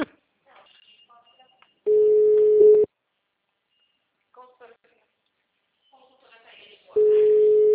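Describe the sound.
A telephone call goes unanswered: the caller hears two long, steady ringback tones separated by a pause, with faint soft sounds in between.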